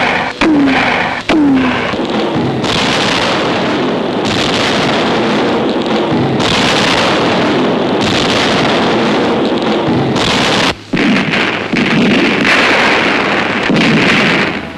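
Artillery gunfire during an attack on a rebel-held jungle fort: a dense, continuous roar of booming blasts, loud throughout, broken by a few brief sharp gaps.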